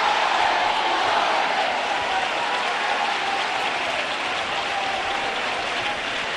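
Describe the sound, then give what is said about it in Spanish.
Theatre stalls audience applauding and cheering a carnival chirigota: continuous, dense clapping mixed with crowd noise, holding steady and loud for the whole stretch. “El público... Está animado con esta chirigota, ya del inicio ya la gente se la ha visto muy animada y muy entregada, y ahora el patio de butaca, ese típico ole y ole”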